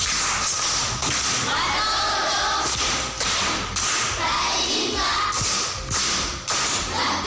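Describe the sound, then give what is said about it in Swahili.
Group applause at Kilimani primary school during a quiz: loud, dense clapping that pulses in a steady rhythm throughout. “Makofi kwa mjomba.”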